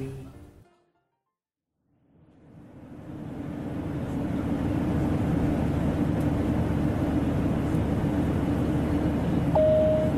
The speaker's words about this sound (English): Ladies and gentlemen, we're just approaching Gatwick Airport and we'll begin our descent shortly, upon which we will illuminate the seatbelt sign.